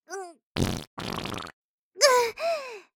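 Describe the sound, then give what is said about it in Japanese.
A person with an upset stomach lets out five short farts in a row, some breathy and sputtering, others squeaky and tonal with a sliding pitch, separated by brief silences. “小刻みにおなら漏らして、あとはしゃがみ込んで、お尻の穴をかかとで押さえて、無理やり我慢したりとか、それでもおならがお尻の穴こじ開けて”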